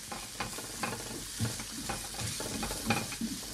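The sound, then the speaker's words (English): Ingredients softening in a pan over medium-high heat before rice is added, a quiet steady sizzle broken by many soft scraping stirs of a utensil. “And for the next minute of stirring, we're just trying to take the edge off the ingredients I've just added. So we're just trying to get them to, you know, soften a little bit in the pan.”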